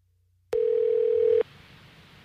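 A steady telephone tone sounds as a call to New York City is dialed. It is one unbroken note lasting about a second, clear and alone, followed by a faint hiss.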